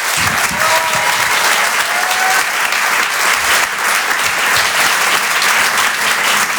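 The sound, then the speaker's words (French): Theatre crowd at the Apollo Théâtre applauding a comedian, loud, thick clapping that runs unbroken and steady from start to finish. “Je vous demande de l'encourager. Faites du bruit pour Rodrigue.”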